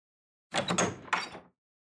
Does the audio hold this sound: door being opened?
yes